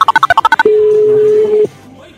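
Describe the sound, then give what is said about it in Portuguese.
Voicemail signal after a phone call is forwarded to a voice mailbox: a rapid series of short electronic tone pulses, then one steady, sustained mid-pitched beep lasting about a second before cutting off. “Sua chamada está sendo encaminhada pra caixa postal e estará sujeita a cobrança após o sinal.”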